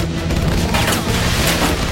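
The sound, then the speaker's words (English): Gunfire hits an old motorhome as it speeds away: a loud, dense barrage of shots and impacts blurs into one continuous crashing roar with no clear breaks and no voices. “They open fire on the motorhome as Bix speeds away”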